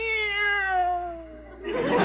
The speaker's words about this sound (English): Meow. This cat is dog happy.